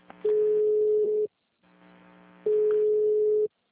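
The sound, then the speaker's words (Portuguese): Telephone tone sounding while a call is transferred to an attendant: two long, steady mid-pitched tones, each about a second, separated by a quieter pause with faint hum. “Por favor, aguarde. Estamos transferindo a sua ligação para um de nossos atendentes.”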